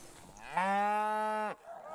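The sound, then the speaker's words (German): A dairy cow moos once as the herd moves to new pasture, a loud, steady, mid-pitched call about one second long that dips slightly in pitch as it ends. “Die Milchkühe ziehen sofort auf die neue Weide.”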